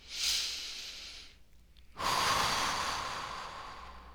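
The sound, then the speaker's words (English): A slow, deep breath, heard as a short airy rush of air. A brief near-silent pause follows, then a longer, louder breath that gradually fades away. “Take one last deep breath with me.”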